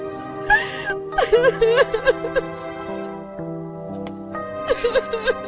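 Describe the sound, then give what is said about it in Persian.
Person crying during a phone call, with wavering sobs and whimpers coming in several bursts separated by brief pauses. “الو الو چرا گریه میکنی؟”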